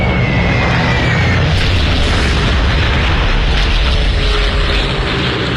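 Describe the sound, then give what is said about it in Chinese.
Wartime aerial bombing of cities in eastern and northern France sounds as a heavy, unbroken roar of blasts, a dense low rumble that stays loud and steady throughout with no voices. “法国东部和北部城市遭到轰炸，法国人不得不面对现代战争的残酷现实。”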